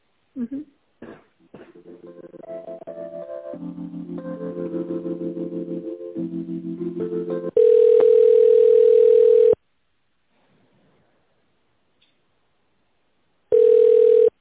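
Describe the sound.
Telephone line tones while a call is transferred: shifting tonal sounds that step around in pitch give way to a loud, steady, long tone, then silence, then the same steady tone returns.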